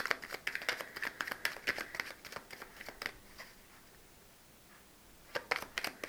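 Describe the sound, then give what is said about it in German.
A classic Arthur Edward Waite tarot deck is shuffled by hand. Quiet, crisp card riffles come in quick bursts, then pause briefly before a short final flurry. “Ich werde dazu das klassische Arthur Edward Waite Tarot auslegen oder befragen. Ich mische erstmal die Karten.”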